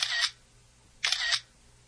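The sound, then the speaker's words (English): Smartphone camera shutter sound: two crisp, bright clicks about a second apart, each a short burst, with quiet between them and no talking. “The advent of smartphones, one of which is responsible for that cute shutter sound you just heard”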